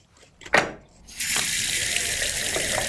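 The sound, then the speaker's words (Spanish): Water running from a tap as a freshly scaled fish is rinsed: a sharp knock, then a loud, steady gushing stream. “Se asegura de que la piel esté suave por ambos lados, antes de enjuagar el pescado y colocarlo de nuevo en la mesa para su preparación.”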